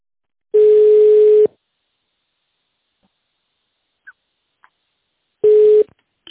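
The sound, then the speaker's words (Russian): A telephone ringback tone sounds while a call connects to a secretary. Two steady, mid-pitched tones about a second long, separated by several seconds of silence with a couple of faint clicks in between. “Соединяюсь с секретарем.”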